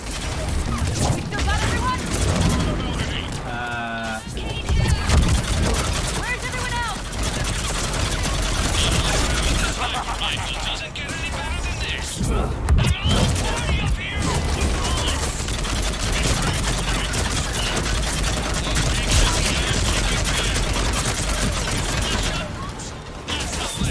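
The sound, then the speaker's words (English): Video game gunfire involving the character Shepard near a Citadel model, with bursts of rapid shots, mechanical clicks and booms, and people talking over the action. “Someone shoots it and it breaks and causes a distraction.”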